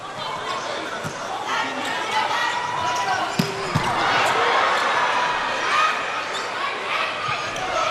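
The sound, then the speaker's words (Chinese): A volleyball is bounced and then served by Shimamura Haruyo at 9-7 in a match. A few sharp thuds of ball contact rise over steady crowd chatter, and commentary is heard. “9-7，岛村春士发球。”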